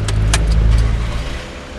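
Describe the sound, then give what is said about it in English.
A car's engine rumbles low and steady as it turns into a gas station in the UK, fading slightly toward the end, with a few brief high jingling clicks near the start. “Okay, we're just turning into a gas station.”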